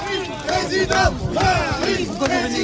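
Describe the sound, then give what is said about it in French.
A hostile crowd of workers at the Whirlpool factory in Amiens shouts in loud, overlapping, chant-like bursts of raised voices. “Accueil houleux pour Emmanuel Macron sur le site de l'usine Whirlpool d'Amiens,”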